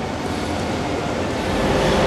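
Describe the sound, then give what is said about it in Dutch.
Passenger train at Schiedam Centrum station, bound for Amsterdam Centraal and the first service after a strike. A steady, broad rumble swells slightly toward the end. “8:19, de eerste trein die na de staking van woensdagochtend vertrekt vanaf station Schiedam Centrum. Eindbestemming Amsterdam Centraal.”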